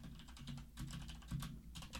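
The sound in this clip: Rapid typing on a computer keyboard while a message is entered into Discord: many light, irregular key clicks in quick runs with brief pauses, steady and fairly quiet, with no voices.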